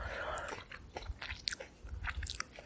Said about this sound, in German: Diese Blaubeeren, die... Ich esse jetzt mal eine.